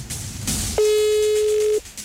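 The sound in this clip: A telephone call rings out unanswered, a single steady mid-pitched ringback tone lasting about a second, set between brief stretches of line noise.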